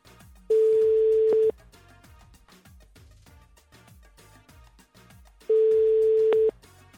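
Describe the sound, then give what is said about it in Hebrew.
A telephone ringing tone while calling a prize winner: two loud, steady tones of about a second each, separated by a long silent gap. “אז בוא נחייג לזוכה. הנה, הנה ישר זה מחייג, זוכה.”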